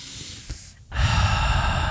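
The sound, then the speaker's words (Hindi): A single deep breath: a loud, rushing airflow begins around the midpoint and holds steady to the end, after a quieter, softer stretch at the start. “गहरी सांस लो, गहरी सांस, deep breathing.”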